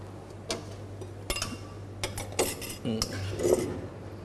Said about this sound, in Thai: แล้วก็คลุกเคล้าให้เข้ากันครับ